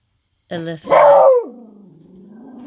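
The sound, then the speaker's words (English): A dog barks at home while renovation work is going on, giving a sharp vocal burst, then a louder one that slides downward into a long, lower, drawn-out growling tone that fades steadily. “excuse the dog barking.”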